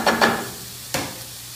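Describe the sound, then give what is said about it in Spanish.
A spoon stirring cauliflower with vegetables and garlic cream in a pan gives three short scraping strokes, two close together and then one more after a pause. “Lo meneamos para que todo vaya moviendo.”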